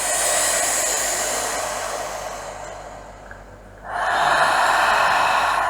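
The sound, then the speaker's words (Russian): Slow nasal breathing from a breathing exercise, loud and airy: one long hissing breath through the nose that tapers off, a brief near-silent lull, then another strong, steady rush of breath that carries to the end. “послушайте. Вдох, носом выдох, вдох носом,”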